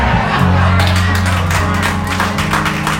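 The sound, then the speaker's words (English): An audience applauds Sister Tina with a steady wash of many hands clapping, loud and unbroken from start to finish. “You guys give Sister Tina a round of applause.”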